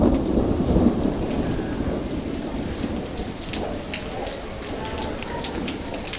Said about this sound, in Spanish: Llovía copiosamente y Laura